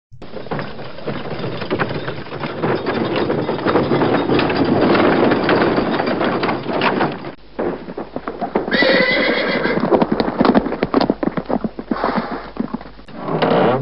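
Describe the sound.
Horses pulling a carriage: a steady stream of clopping hooves with loud, repeated neighing and whinnying, dipping briefly midway before the hoofbeats and whinnies resume.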